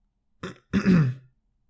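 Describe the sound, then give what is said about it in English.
A person clears their throat: a short rough burst, a brief pause, then a longer, louder rasping grunt that trails off, heard alone against silence. “Gentle raised his paw and cleared his throat.”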